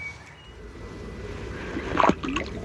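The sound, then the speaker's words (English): A water vole plops into a burn: one short, sharp splash near the end stands out over a soft, steady trickle of running water. “it's the plop of a water vole disappearing into a burn, usually the only thing you see or hear of them”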